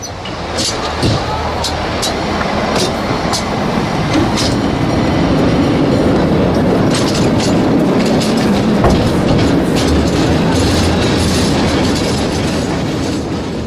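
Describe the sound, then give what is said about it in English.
A San Francisco cable car rumbles loudly along its rails, with continuous rattling and many sharp metallic clicks and knocks from the wheels. “Part 4, San Francisco. Come, let's ride the trolley.”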